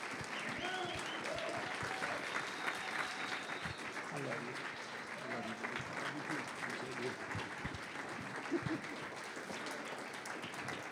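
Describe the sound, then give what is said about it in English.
Church audience applauding to welcome a pastor onto the stage: steady, dense clapping that runs through the whole clip, with voices mixed into the crowd noise. “Let's put our hands together and welcome Pastor Paul as he comes and ministers to us tonight.”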